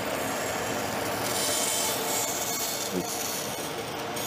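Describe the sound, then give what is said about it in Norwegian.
A hand saw cuts a circle out of wood with a steady, continuous rasping scrape that barely varies in loudness, and no one speaks. “Trierlaget bestemmer seg for å bytte sagfører flere ganger underveis, men i det de har saget ut hele sirkelen”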